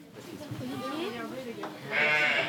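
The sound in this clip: A sheep bleats during the birth of a lamb, giving a wavering, tremulous bleat followed by a louder, brighter bleat near the end.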